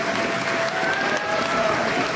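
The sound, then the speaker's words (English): Applause fills a school gym after a formal apology speech in a Tlingit village, a steady, dense wash of many hands clapping at moderate level, unbroken throughout, with no distinct voices. “As he finished, the gym filled with applause.”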